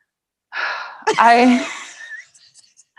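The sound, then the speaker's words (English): A person taking a deep breath: a breathy inhale followed by a louder, voiced exhale like a groaning sigh, trailing off into faint, soft noises. “Should you take a deep breath first? Maybe I should.”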